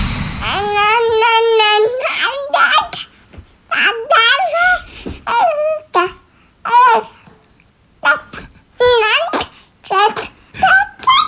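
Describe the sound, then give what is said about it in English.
Baby girl under ten months old babbling: many short, sing-song vocal bursts with rising and falling pitch, some stretched into whiny, wail-like tones, separated by brief pauses. “No words yet, but she's getting fierce chatty in the baby speak. It sounds like this.”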